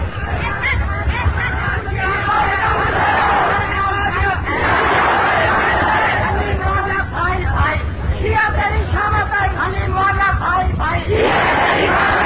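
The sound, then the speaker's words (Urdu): A crowd chants slogans in unison at a religious rally. Loud, rhythmic bursts of many voices repeat over steady crowd noise, with shouted calls rising and falling throughout. “نعرہ نعرہ ساتھی یہ لگا رہے ہیں، شاید آواز نہ پہنچ رہی ہو، نعرہ یہ لگا رہے ہیں کہ علی معاویہ بھائی بھائی، شیعہ تیری شامت آئی”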